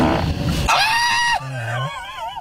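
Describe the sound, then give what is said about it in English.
A fart let out in a car with the air conditioning turned down: a drawn-out, squeaky, buzzing tone that drops low midway and then wavers, loud and steady, with no talk. “I'll turn the air down while I fart.”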